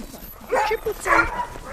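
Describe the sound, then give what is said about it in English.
Sled dogs yelp and whine, restless and pulling while their team is hooked into harnesses for an exercise run: a few high, wavering yips and whimpers rise and fall in quick, uneven bursts. “The other dogs can't stay still. They're pacing and pulling, yelping and whining.”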